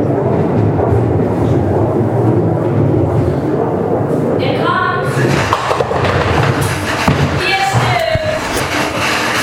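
A bowling ball rolls down the lane with a low, continuous rumble that stays loud and steady throughout, and sharper knocks break through in the second half.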